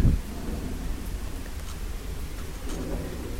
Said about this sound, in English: the rain's getting heavier.